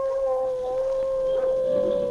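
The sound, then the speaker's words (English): A gray wolf gives an eerie howl of victory over a defeated black wolf. It is one long, sustained tone held at a nearly steady pitch for the whole two seconds. “A moment later, the gray wolf stood over his vanquished foe and gave vent to an eerie howl of victory.”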